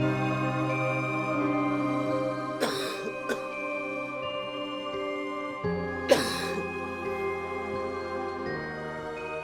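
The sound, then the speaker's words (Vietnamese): A man coughs dryly and rapidly in two short bursts, separated by a quieter gap. A sustained, steady musical drone runs underneath. “Tiếng ho khan dồn dập của Long phá đi sự yên tĩnh của bầu không khí xung quanh.”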